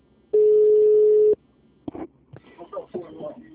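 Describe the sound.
Ringback tone of an outgoing telephone call: a single steady mid-pitched beep lasting about a second, followed by quieter broken fragments of voice on the line.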